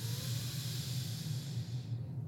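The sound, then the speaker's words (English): Deep breathing during a guided meditation, a steady, airy hiss of breath over a low hum, held at an even level with no talk. “Let's remember our breath. Take an inhale. And we let it go.”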